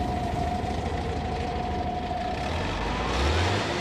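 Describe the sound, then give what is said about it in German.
The engine of a winch vehicle runs on ice as a loud, steady roar with a thin constant whine above it. A deeper rumble swells near the end. “Macht den Motor an! Rasch! Rasch!”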